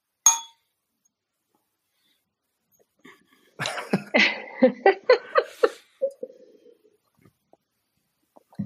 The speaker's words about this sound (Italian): allora brindo con un vino spagnolo che è uno dei miei eh, preferiti, che è un albarigno